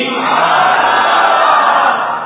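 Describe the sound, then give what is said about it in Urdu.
A crowd at a zikr and naat gathering in Karachi chants the religious slogan "Faiz-e-Raza jari rahega" in unison. The massed voices are loud and sustained throughout the brief moment, heard alone. “الحمدللہ ہم ابھی یہ نعرہ لگا رہے تھے فیض رضا جاری رہے گا انشاءاللہ جاری رہے گا”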